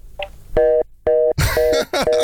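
Busy-signal tone on a telephone line after the caller hung up: loud, steady beeps repeating in an even on-off rhythm, with rough noise over the later beeps.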